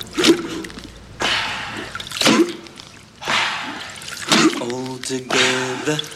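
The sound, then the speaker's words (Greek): Canoe paddles dip into water on a group paddle in Australia, a regular series of splashy strokes about once a second, each a short wet rush, with a brief voice near the end. “All together, lean on the paddles, lean on and lift out silently.”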